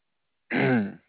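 A single throat clearing caused by a tickle in the throat: one rough, loud burst lasting about half a second, heard alone with no talk around it.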